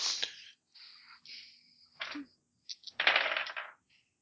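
A large handful of dice is rolled, making a rattling, clattering sound in a few short bursts. The clatter is fairly quiet and ends in a louder, denser tumble.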